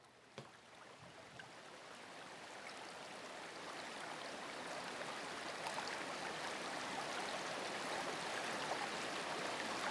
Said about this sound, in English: This is a huge swimming pool that is directly connected to one of the locker rooms.